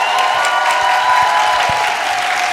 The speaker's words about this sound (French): est-ce qu'on peut faire du bruit pour le Paris Podcast Festival et tous les auteurs et les autrices de podcasts ?